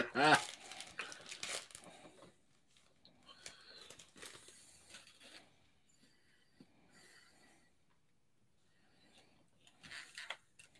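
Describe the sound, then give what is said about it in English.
Crinkling of a trading card pack being torn open, with loud bursts of crackling wrapper at the start and again near the end and quieter rustles in between. “All right, open the other pack.”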